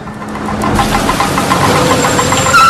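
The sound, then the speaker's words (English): A car engine as the car pulls up outside a school, a steady mid-pitched rumble with a slightly knocking texture that swells a little after the opening moment and then holds firm to the end. “She stands enthusiastically as a car pulls up.”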